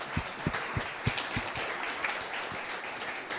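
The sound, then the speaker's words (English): Audience applause welcoming a mother and her baby at an onstage conversation. The clapping is faint and steady, with a few louder claps standing out early on. “I think we all ought to give a hand to this fine woman over here who's here with her baby. Welcome her.”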